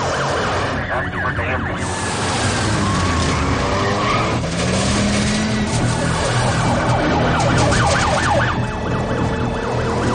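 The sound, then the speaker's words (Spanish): A vehicle accelerates hard away through city streets, chased by police patrol cars. Wailing sirens rise and fall continuously over loud engine roar and screeching tire skids, forming a dense, chaotic chase. “arranca y acelera maniobrando intentando esquivar a las patrullas”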